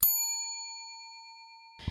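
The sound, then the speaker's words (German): A library security gate alarm for an item that was not deactivated: a single bright, bell-like tone rings out and fades slowly for nearly two seconds, followed by a brief low thump. “Erkennt es ein nicht entschärftes Medium, leuchtet es rot auf und piept.”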